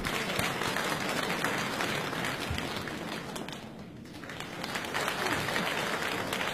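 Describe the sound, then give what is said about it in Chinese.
Audience applause at a comedy performance, dense steady clapping that dips briefly midway and then swells again, with some crowd noise. “大家 掌声有请两位。”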